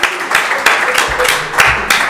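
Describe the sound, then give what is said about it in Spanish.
Applause for a veteran artist of the Madrid music scene: loud, steady clapping with a few sharper surges that recur at roughly even intervals across the short clip. “pido un aplauso para él”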